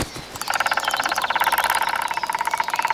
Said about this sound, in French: Le pivert frappe le tronc avec son bec de toutes ses forces, à une allure folle. Un vrai marteau-piqueur.